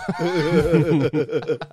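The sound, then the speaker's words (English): A horse neigh sound effect, the Filthy Frank horse, gives a loud, wavering whinny with a sliding pitch that then breaks into shorter, choppy bursts. “Filthy Frank horse, might make it into the wedding. Horse is dead now.”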